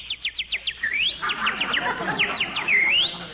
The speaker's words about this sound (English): Ah, listen to that little birdie singing.